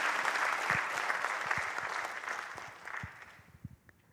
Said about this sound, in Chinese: 谢谢，感谢大家的掌声